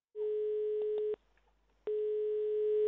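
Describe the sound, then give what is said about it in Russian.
Telephone line tones as a call is placed: a steady mid-pitched tone holds for about a second, breaks off for a short pause, then returns and runs to the end. “Сейчас я ей позвоню и поговорю с ней на эту тему.”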